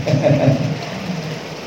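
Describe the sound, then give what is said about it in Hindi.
Rain falls steadily, a dense, continuous hiss with a low rumbling undertone, louder at first and easing slightly toward the end, with no voices. “मतलब आज प्रसन्न है वो इसलिए बारिश हो रहा है”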